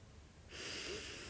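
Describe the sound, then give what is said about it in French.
A person breathing in and out slowly during a calm breathing exercise: a faint, soft, airy breath that swells midway and then holds steady, with no talking. “On inspire... Et on expire.”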